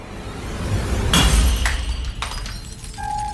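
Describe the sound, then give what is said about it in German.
Glass shattering as a small liquid-filled glass flask drops onto the floor of a school entrance hall: one loud, sharp crash followed by a few scattered lighter tinkles, with no voices. “Wie aus dem Nichts fällt in der Eingangshalle ein kleiner, mit Flüssigkeit gefüllter Glaskolben zu Boden und zerschellt.”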